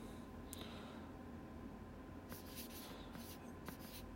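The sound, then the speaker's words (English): Handwriting on paper while jotting down design notes: faint, scratchy pen strokes, one brief stroke early and then a cluster of short strokes in the second half over a low, steady hum. “Maybe there's something I could do there. Okay. I'm just going to write,”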